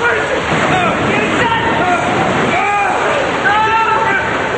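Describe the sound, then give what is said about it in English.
Rushing, sloshing water floods in against a door as people struggle to shut it against immense pressure: a loud, continuous roar of surging water with splashes throughout. “They struggle to shut the door against the immense pressure. Janice starts up the maintenance ladder with Susie close behind her.”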